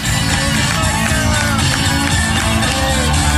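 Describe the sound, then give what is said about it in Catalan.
Crowd noise at the finish line of a 125-kilometre race as a runner arrives, a dense, loud and continuous din of many voices that holds steady throughout. “Sentim com el van rebre a la línia de meta.”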